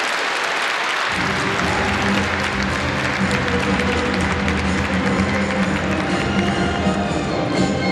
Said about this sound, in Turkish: Alkışlarınız bu kardeşlerimiz için.